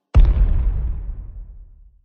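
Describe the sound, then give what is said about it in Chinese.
A single loud bomb blast as a planted bomb is stepped on: a sharp onset followed by a deep rumbling boom that decays smoothly over about two seconds into silence. “看样子他们踩到了我事先买好的炸弹了。唉，那些是我此次出行最后的炸弹”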